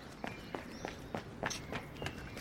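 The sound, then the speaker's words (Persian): Footsteps of someone hurrying along an alley toward a house: quick, evenly spaced steps, soft and fairly faint, with no talking. “با عجله میدوه سمت یه خونه”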